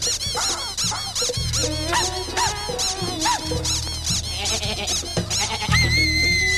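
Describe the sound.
People imitate a wild sheep and a wild donkey with many squeaky, high bleats and squealing brays in overlapping voices over a steady low droning background.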